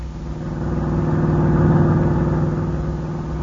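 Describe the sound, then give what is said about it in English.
Engine rumble of a car driving into a ranch, a steady mid-pitched hum that swells a little and then eases, with no talk. “As we pick them up, they're just driving into the ranch.”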